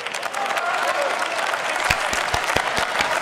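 Applause in the German parliament: a steady wash of clapping from many people, with sharper individual claps standing out toward the end.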